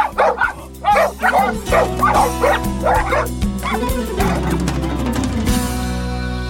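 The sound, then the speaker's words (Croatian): A dog barks repeatedly in quick, uneven bursts, mixing deep woofs with higher yips and a brief whimper. The barking is loud and frequent throughout. “kada sljedeći put čujete lavež u daljini, možda to nije samo pas, možda je to glas istorije.”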